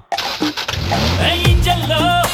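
A car engine is being started, turning over with a loud, rough, churning mechanical sound that continues steadily through the short stretch.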